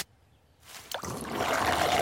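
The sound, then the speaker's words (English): Blue liquid spilling: after a brief quiet start, a soft rush begins, a sharp splash cuts in, and a steady, hissing trickle follows, growing gradually louder to the end with no voices. “Watch what happens when I spill this blue liquid.”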